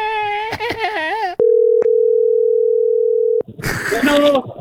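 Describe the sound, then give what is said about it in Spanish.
A telephone dial tone sounds as a call is dialed again: one steady, loud tone lasting about two seconds, with a voice just before it and voices after. “Pero dale, vamos a marcar otra vez.”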